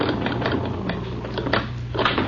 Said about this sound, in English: As they read the list of tenants' names on the wall, a creaky elevator halts at the first floor.